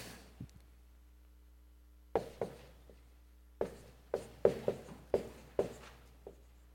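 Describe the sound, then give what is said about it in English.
Someone writes by hand, making short, crisp scratching strokes. A few sparse strokes come first, then a quicker run of sharp taps and scrapes separated by quiet gaps. “I'll write this one too.”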